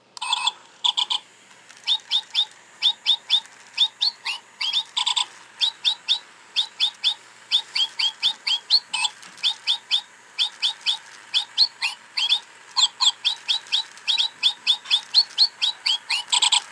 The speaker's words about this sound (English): I think he's supposed to be a parrot, although I'm not quite sure what he is. And when you switch him on, this is what he does.